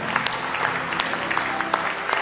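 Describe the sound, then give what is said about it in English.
Congregation clapping their hands in praise during a church service: dense, steady applause that fills the whole stretch, with crisp individual claps popping out of the wash. “Give Him a hand clap of praise tonight in the house of the Lord.”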